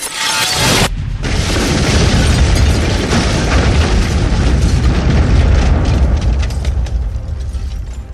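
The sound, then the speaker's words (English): A video game explosion from a character's self-destruct spell: a sharp burst opens into a loud, roaring boom that rumbles on steadily for several seconds. “casts a spell which causes her to explode with the force of a Minatra bomb”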